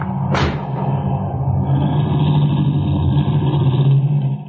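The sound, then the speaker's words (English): A car engine hums steadily as the vehicle drives up, with a brief sharp noise near the start and then an even mid-pitched rumble. No one speaks. “the agent drives up and stops in front of me”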